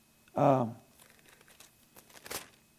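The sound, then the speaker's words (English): Bible pages being turned: soft papery rustles and flicks, ending in a sharper crinkle. A brief voice sounds at the start. “2 Thessalonians, and look at, turn those pages. I like to hear those pages turn.”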